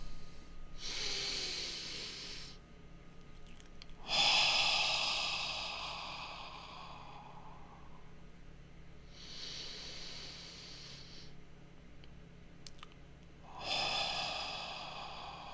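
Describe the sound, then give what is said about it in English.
Two deep breaths taken slowly during a mindfulness practice. Each is a hissing inhale followed by a longer, softer airy exhale, with pauses between them and no talking. “let's take 2 deep breaths together.”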